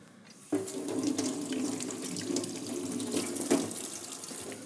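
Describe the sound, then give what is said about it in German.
Tap water runs as tomatoes are washed under a faucet. The flow switches on abruptly, then pours in a steady, hissing stream, with a few brighter splashes through it. “Wir nehmen mal Tomaten, die waschen wir jetzt ab.”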